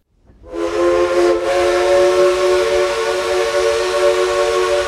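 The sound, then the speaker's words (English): Steam whistle of a 1920s Heisler No. 6 locomotive as the train departs on the Cass Railroad in West Virginia's mountains: one loud, chord-like blast that starts suddenly and holds steady to the end, with only a brief dip early on. “This is the sound of a 1920s Heisler No. 6 locomotive known here as the Durbin Rocket.”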